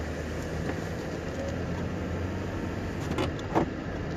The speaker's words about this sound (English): I'm in the car going to work.